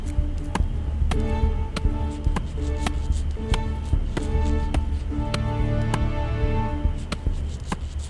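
A knife blade hacks at a dead tree in a radio drama effect, making many sharp woody thuds in a steady rhythm of roughly two blows a second over a low rumble.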